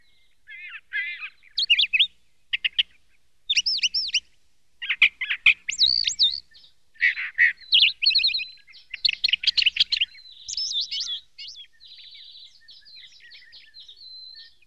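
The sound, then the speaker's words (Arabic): A sparrow chirps in many quick, high twittering bursts and trills, arriving in irregular clusters and thinning into softer, sparser tweets toward the end, with no voices. “إن هذا العصفور صديقي.”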